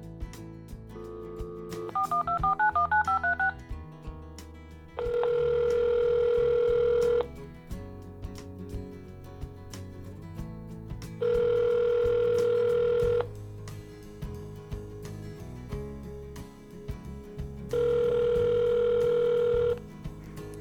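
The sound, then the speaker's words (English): Telephone dialing: a quick run of keypad beeps, then three long, evenly spaced ringing tones, each steady and loud, over a continuous low background. “I want to call back the last caller.”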